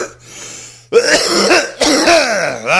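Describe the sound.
Harsh throat clearing and coughing from a man: a quieter rasp opens, then a few loud, rough bursts follow one another, with no talk.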